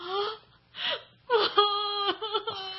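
A person cries and sobs in several bursts of wavering, high wailing, broken by short gasping breaths between them. The sobs grow longer and more continuous toward the end.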